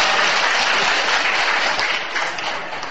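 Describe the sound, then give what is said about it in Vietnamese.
Dense, continuous applause from an assembled audience at a gathering, loud and steady throughout and easing slightly toward the end. “xin đại chúng ở dưới vỗ tay thêm nhiệt nữa cho con”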